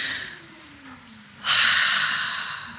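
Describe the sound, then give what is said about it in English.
A deep breath drawn in: quiet, airy breathing gives way to a long, loud, hissing inhale that swells suddenly and then slowly fades. “Can we take a deep, deep breath together?”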